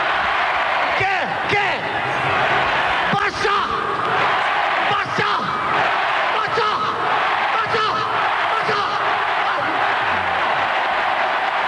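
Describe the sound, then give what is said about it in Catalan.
Crowd celebrating FC Barcelona's 1998 league title in Plaça Sant Jaume: a dense, loud, continuous roar of many voices shouting and cheering, with scattered whoops and bellows rising out of the din throughout. “el Barça va guanyar 1-0 contra el Saragossa l'última jornada, va proclamar-se campió, però no ens quedem amb un document del Camp Nou, sinó de la celebració a la plaça Sant Jaume.”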